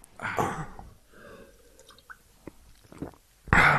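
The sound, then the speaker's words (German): Wet gulping and swallowing from drinking a pale lager, a few short mouth and slurp sounds, with a louder burst at the start and another at the end and quieter clicks between. “Ich würde sagen, wir trinken noch aus”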